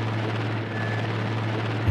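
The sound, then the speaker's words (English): Helicopter rotor noise during a rescue as a basket for carrying people is lowered: a steady low throbbing drone under broad hiss, level and unbroken throughout, with no voices. “a helicopter is bringing down like a, you know, a basket that you would put people in, like a rescue basket.”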